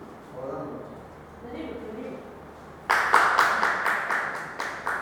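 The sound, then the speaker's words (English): Hands clapping with raised hands during a teaching session: quiet talk first, then a sudden loud burst of many rapid, rhythmic claps that continues to the end. “When we clap, more water is coming. Just clap, both the hands are raised.”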